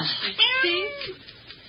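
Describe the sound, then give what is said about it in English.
A cat meows indoors, a single loud, drawn-out and wavering cry. “Stop that, you bad cat, you.”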